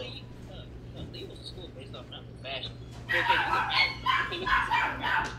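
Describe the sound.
A dog barks and yips in quick, sharp bursts that grow louder and denser in the second half, while people talk over it.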